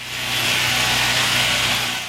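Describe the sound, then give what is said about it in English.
Engine of a mobile sheep-shearing truck parked in Idaho, running as a loud, steady mechanical drone with a hissing, airy top and a low buzzing hum underneath, holding level throughout. “Enter the sheep shearing truck.”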